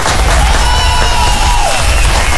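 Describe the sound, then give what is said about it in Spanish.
An audience applauding and cheering for performers at a festive event: loud, unbroken crowd noise with clapping and shouts, and a thin sustained tone running through it. “Regálenme un aplauso para Luisito, por favor, y todos los muchachos que nos acompañan.”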